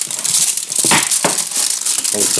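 Aluminium foil from a whole milk chocolate bar crinkles and crackles in a dense, continuous rustle, with brighter crisp bursts standing out from the steady crumpling.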